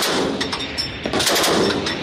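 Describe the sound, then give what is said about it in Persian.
Rapid gunfire at a firing range during a joint military exercise of three countries' forces. Many loud shots crack in dense succession. “در ادامه عزیمت کردند به صوب نقطه آغاز تیراندازی.”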